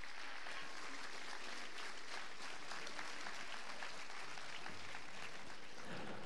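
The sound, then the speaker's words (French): Applause for 14 contestants from the audience at a Johnny Hallyday tribute evening: a steady, dense wash of many hands clapping at low recorded level, unbroken from start to finish. “applaudissez nos 14 candidats, il faut le faire, applaudissez-les.”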